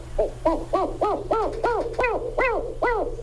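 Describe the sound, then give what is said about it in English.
Hooting of a northern spotted owl: a rapid, evenly paced series of short, arched tonal notes, fairly loud and alone over a steady low hum. “the spotted owl, or specifically the northern spotted owl”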